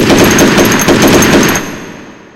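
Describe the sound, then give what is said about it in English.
Rapid, loud automatic fire from a Browning M2 .50 caliber machine gun: a fast, continuous stream of shots that stops abruptly and leaves a fading tail. “How else would I be able to pull out this Browning M2 0.5 caliber machine gun and shoot your companion dead?”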